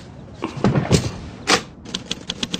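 A typewriter's keys clack in irregular bursts, several strikes clustering close together and then quickening into a lighter run of taps toward the end.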